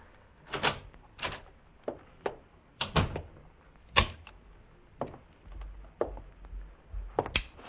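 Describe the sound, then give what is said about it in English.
A key turns in a door lock and the door opens, heard as a quiet series of sharp metallic clicks and soft thunks spread unevenly across several seconds. “And then I heard the key in the lock.”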